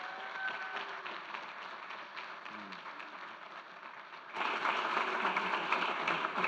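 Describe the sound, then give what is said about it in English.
Applause from a church audience welcoming two guest pastors, a dense rustling patter of many hands clapping that grows noticeably louder and fuller for the final couple of seconds. “I would love you to put your hands together and give a warm welcome to Pastors Don and Deb Metcalf.”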